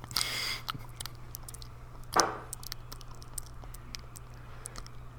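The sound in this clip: Wet mouth sounds made for ASMR: faint scattered clicks and smacks with one louder smack, over a low steady hum and without talk.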